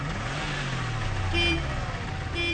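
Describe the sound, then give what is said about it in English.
A car engine failing to start, giving a low, uneven sputtering rumble whose pitch wavers and never settles into a steady idle. “His car won't start.”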